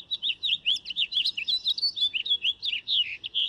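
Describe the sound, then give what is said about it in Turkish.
A nightingale sings a fast, varied stream of high chirps, trills and whistled notes in many short phrases packed closely together, clear over a faint low background. “O ses bülbülün en tipik seslerinden biri. Buraya geldiğinizde bazen o sesi duymak için biraz beklemek gerekiyor.”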